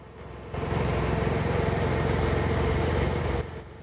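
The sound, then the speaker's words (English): A John Deere riding mower motors along a desolate, straight road, its engine giving a steady, low, chugging drone that holds even throughout, with no other sounds. “The John Deere mower motors gently along another desolate, undeviating road.”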